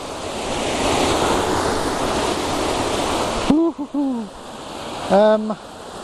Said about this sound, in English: So this waterfall, it's got a name but I can't remember what it's called.